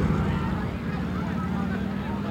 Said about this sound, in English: And here come the police. One, two, three, four police on motor scooters. One demonstrator knocked down by a motor scooter policeman.